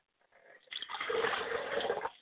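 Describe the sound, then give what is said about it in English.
Liquid poured out as a ritual libation makes a steady, soft splashing and trickling that starts faintly, then swells and holds at an even level for over a second before stopping. “I pour libations to the West, and I say Ashe.”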